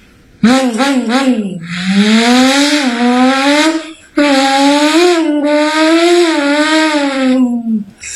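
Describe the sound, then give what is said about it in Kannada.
A voice imitates a motorbike passing at full speed, producing two long, buzzing, wavering engine-like drones separated by a brief break. “ಒಂದು bike full speed ಆಗಿ ಹೋಗುತ್ತಿತ್ತು.”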